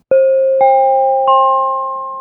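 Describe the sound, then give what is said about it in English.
Electronic chime of the SkyTrain, also played on buses: three clear bell-like tones sounded one after another, each pitched a step higher. The final note rings on and slowly fades, with no voices. “we're talking about the story of the SkyTrain chime. You can now hear it on buses, too. It sounds like this.”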